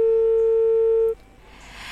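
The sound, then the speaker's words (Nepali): Steady telephone tone on a disconnected caller line, holding one unbroken pitch for about a second before it cuts off abruptly, leaving low hiss. “Phone disconnect भएको छ फेरि पनि dial गर्नुहोला”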